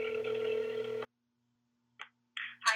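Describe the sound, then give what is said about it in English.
Telephone tones come from a call being placed: a steady electronic tone holds for about a second and cuts off. After a short silence, a few brief dialing beeps follow. “I reached out to Kent State Police Department Lieutenant Michael Lewis for comment, first by phone call,”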